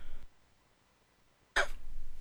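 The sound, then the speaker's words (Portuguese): A single short, sharp cough from a person troubled by a persistent cough breaks a near-silent pause. A brief trailing sound follows it. “Eita, que essa tosse não me abandona nunca.”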